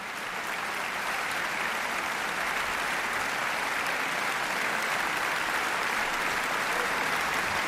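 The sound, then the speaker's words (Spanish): A concert hall audience applauds the Orquesta Nacional de Cataluña, conductor Ludovic Morlot and the soloist after Brahms's Violin Concerto in D major, Op. 77, in dense, steady, sustained clapping with no break. “Ha habido una gran complicidad entre orquesta, solista y director que se ha transmitido al público de la sala y por eso agradecen con esta cantidad de aplausos esa conexión.”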